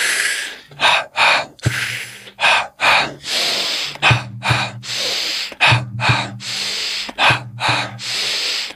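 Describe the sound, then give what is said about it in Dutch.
Breathing during a guided breathing exercise, drawing in through the nose and releasing out through the mouth. Many loud, breathy rushes follow in a steady, even rhythm, each separated by a brief gap, with no voices. “Je ademt in door je neus en laat weer los door je mond.”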